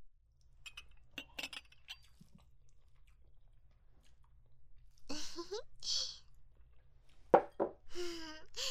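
Steak being bitten and chewed, heard as quiet, moist clicks and squishes in scattered bursts, with a few light clinks between bites.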